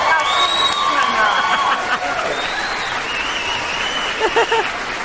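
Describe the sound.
An applause and cheering sound effect is played on a live cooking show. Steady crowd clapping and cheering run throughout, with a voice briefly heard over it near the end.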